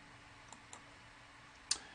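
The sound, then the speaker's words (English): Computer mouse clicks: three faint, crisp clicks over quiet background hiss, two close together early on and a sharper, louder one near the end. “First I have to click it, then I right click here.”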